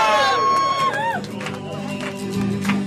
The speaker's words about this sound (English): So here it goes, up she goes. God. Give her a big cheer.